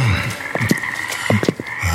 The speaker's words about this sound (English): But the frogs keep coming and coming.